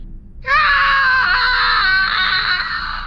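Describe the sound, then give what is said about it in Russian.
A wild, piercing scream from a woman in a horror thriller set at the North Pole. It bursts in after a brief quiet and holds high and loud to the end with a slight waver. “Дикий крик, от которого звенит в ушах.”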